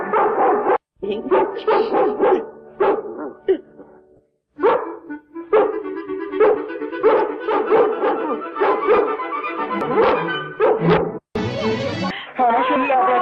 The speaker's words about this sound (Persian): بعضی شبا مثل این که صدای واق واقشون رو میشنوم